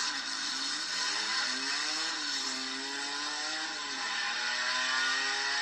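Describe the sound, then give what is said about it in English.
An Opala SS race car with an overhead valve inline six engine, from the 24 hours of Interlagos, revs high and loud. The buzzing engine note climbs and drops several times before settling into a sustained, strained whine. “And they actually have a soundbite of an Opala SS here. Let me see if it'll play.”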